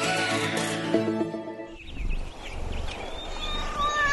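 A cat meows over a noisy background once a short burst of music cuts off, the meows thin and rising above a steady wash of sound.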